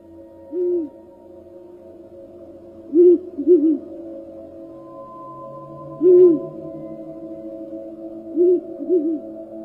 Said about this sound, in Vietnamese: bỗng nhiên có tiếng chim cú giúp gọi bầy vang lên ở trong rừng.